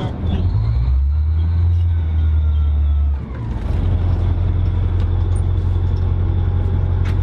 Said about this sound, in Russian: Працюють на британській самохідній артустановці АЕС-90. Вона із військовослужбовцями вже понад рік.